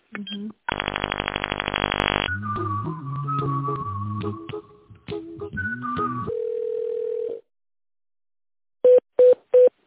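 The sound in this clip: Telephone line tones while a call is being transferred: a harsh buzzing tone, then shifting tonal and voice-like sounds and a steady held tone, followed after a silence by three short, evenly spaced beeps.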